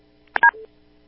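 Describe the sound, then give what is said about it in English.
Telephone keypad tones pressed by a cat stepping on the phone: a brief cluster of a few electronic beeps, one right after another, followed by a short steady tone, then silence. “Sounded like something bad just happened. I think your cat stepped on the phone.”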